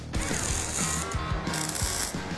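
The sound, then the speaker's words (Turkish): An abrasive tool shaves both ends of a zinc-painted exhaust pipe, making a steady harsh rasp with a thin high whine, broken by a few dull knocks. “borunun iki ucunu da tıraşlıyorum.”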